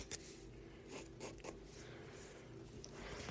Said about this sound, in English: now I'm drawing my pants, which are just like basic pants.